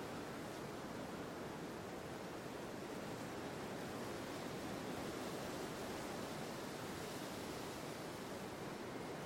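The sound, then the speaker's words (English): Ocean waves roll in towards land as a dense, steady roar of surf, loud and continuous, with no separate breaking waves standing out and no voices. “In slow motion, the rolling barrels of threatening waves move relentlessly towards land.”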